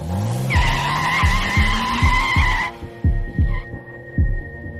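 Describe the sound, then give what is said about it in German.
Sports car pulling away with skidding tires: a loud, steady tire screech over a rising engine tone, the screech cutting off after under three seconds while the engine keeps throbbing in regular low pulses. “Steig ein. Wir fahren hinterher. Ich hab einen Sportwagen.”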